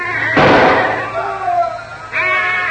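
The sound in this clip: A rifle shot rings out in a jungle-war radio drama: one loud, sharp burst early on, followed by men talking.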